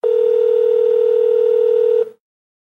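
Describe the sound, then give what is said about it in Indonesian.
A telephone dial tone as a call connects: one steady, unbroken mid-pitched tone holds loudly for about two seconds, then cuts off abruptly into silence. “untuk memantau langsung kondisi di lapangan, kita terhubung dengan kawan podcast Road Life Report.”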